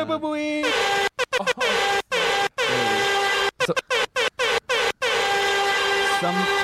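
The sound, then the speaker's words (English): Loud air horn blaring: one long sustained blast followed by a rapid series of short, choppy honks broken by brief silences, harsh and piercing throughout. “they just blared that horn too loud”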